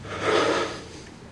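A person takes one deep breath, a single long airy rush of air that swells and then fades away.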